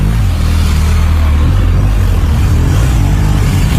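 A car engine runs during driving training, a steady, loud, low rumble that holds evenly throughout with no talk over it.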